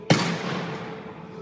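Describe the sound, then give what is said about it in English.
One sharp gunshot, fired during a struggle, with a loud crack followed by a long fading decay. There is no other sound. “The first shot actually strikes Ahmad in the chest. There's a struggle. A second shot.”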